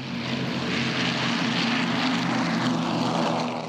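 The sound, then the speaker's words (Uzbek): Propeller-driven 1940s-era airplanes fly over Washington during a World War II memorial ceremony, a loud, steady engine drone that holds level throughout without a break. “Poytaxt uzra 1940-yillar rusumidagi samolyotlar uchib o'tadi.”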